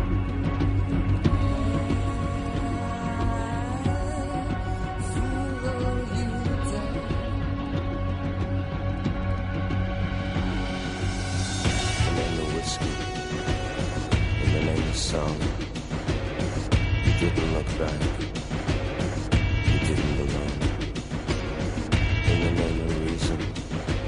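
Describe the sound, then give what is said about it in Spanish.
Instrumental film theme music plays steadily throughout, with sustained tonal layers and a constant, full level, no voices over it. “esta es la sintonía de la película En el nombre del Padre”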